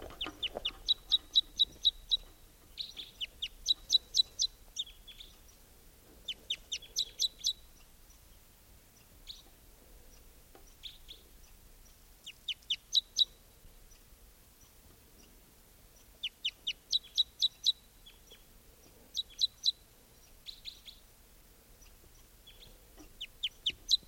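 Song of a singing male bird of call type 2: many repeated short bursts of rapid, high chirping notes separated by brief pauses, fairly faint, with no other sound.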